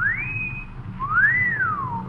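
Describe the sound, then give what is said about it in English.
A kid wolf-whistling at girls: two loud, clear whistled notes with no talk. The first slides up and holds, and the second rises, then swoops down. “The nerve of that kid whistling at girls.”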